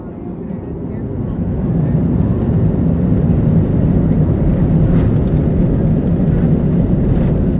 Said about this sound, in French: On a décollé. C'est magnifique.